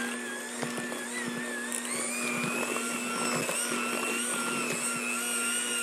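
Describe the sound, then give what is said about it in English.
Electric mixer whirring as it beats ground crumbs into dough: a steady motor hum with a higher whine and faint scraping ticks, holding an even level throughout. “So we're going to put those in, and I'm going to beat those in real quick.”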